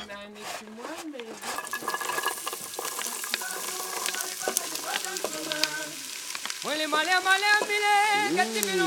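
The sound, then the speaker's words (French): Onions sizzle as they fry in a pan, a steady crackling hiss that runs throughout, while voices talk over it. “Est-ce qu'il y a des précautions particulières à prendre pour faire rissoler tes oignons là ?”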